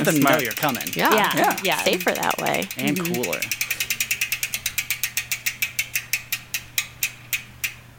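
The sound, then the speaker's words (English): Rapid ratcheting clicks from a spinning bicycle wheel's freehub follow talk, a long run of many sharp clicks whose spacing gradually widens as the wheel slows. “that one is pretty loud when you spin it”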